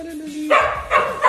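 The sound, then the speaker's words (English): A pet dog barking on noticing its owner: a brief whining tone, then a few sharp, fairly loud barks in quick succession. “My dog's just realized I'm here.”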